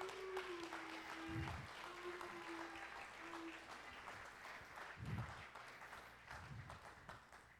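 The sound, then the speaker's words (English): Audience applause welcomes two guests to the stage at a morning gathering: faint, sustained clapping that swells a little in places and runs throughout. “Come on, give it up for them.”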